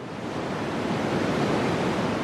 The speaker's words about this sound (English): What you're hearing is a white noise stream.